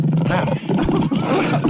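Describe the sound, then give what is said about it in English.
A lion roars in loud, rough, low growling bursts that fill the short clip with only brief dips between them. “Boy, there's one in the studio now. My goodness, where did he come from? Where he just walked in the door. Who's that lion on the floor?”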